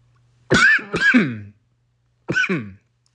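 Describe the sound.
A person clears their throat with a few short, harsh, raspy coughs: two quick bursts close together, a pause, then one more. Each is moderately loud, with no talk around them.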